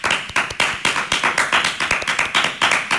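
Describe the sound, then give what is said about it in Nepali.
Children clapping loudly for a friend who has just recited a poem, many sharp claps falling in a quick, fairly regular rhythm that keeps going without a break. “साथीलाई कविता सुनाएकोमा जोडले ताली बजाइदेऊ।”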